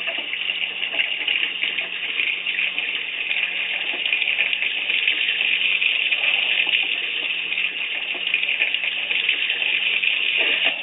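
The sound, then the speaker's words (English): Tap water runs from a sink faucet while someone sets it alight. The water gives a steady, unbroken gush that holds at an even level for about eleven seconds, with no talking. “this man is lighting his tap water on fire. Let's just give it a second.”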